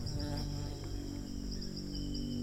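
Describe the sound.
Bees buzzing around amid wreckage lying in sand, heard as a faint, steady insect drone with a continuous low rumble beneath it.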